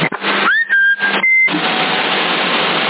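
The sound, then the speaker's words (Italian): Steady band-limited hiss of a 27 MHz CB radio channel in Sassari, with brief whistling carrier tones near the start: one rising and others held steady. Continuous static fills the rest, with no voices. “Ho sentito una piccola portante di fondo.”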